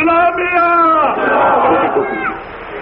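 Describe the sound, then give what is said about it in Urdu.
A single voice calls out a religious slogan, then a crowd answers with a loud, roaring reply that swells and holds before easing off. “نعرہ تکبیر، نعرہ ختم نبوت، نعرہ صحابہ”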